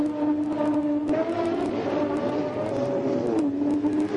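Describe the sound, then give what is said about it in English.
Racing cars at speed on the Monza circuit, including Jim Clark's Lotus: a continuous, high-pitched engine whine with layered tones that waver and shift in pitch, dipping briefly near the end. “3 laps to go. The amazing Jim Clark up from last. Still leads in the Lotus, but Black Jack Brabham fights back. He's passing Surtees into second place.”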